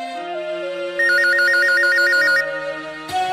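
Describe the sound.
A phone rings with an incoming call, its electronic ringtone a rapid, warbling trill that repeats over a steady tonal backing and then stops abruptly, with no talk heard.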